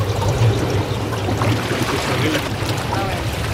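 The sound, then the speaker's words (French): Steady rushing and bubbling water of a jacuzzi beside a pool at a nature retreat above Lake Maggiore, a continuous dense wash of noise with a low churning rumble underneath and no clear breaks. “Mais si c'est très chaud, il y a la piscine. Donc, ici, on peut... Le jacuzzi.”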